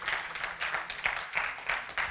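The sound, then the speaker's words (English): Church audience clapping hands in praise, a quick, rhythmic series of many claps at moderate volume, blended into a steady wash. “Just give them a hand clap and praise.”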